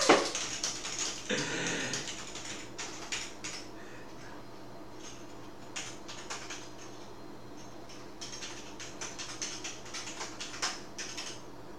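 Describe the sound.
Card payment details being typed on a computer keyboard, many quick, irregular key taps, fairly faint and steady, with no one talking.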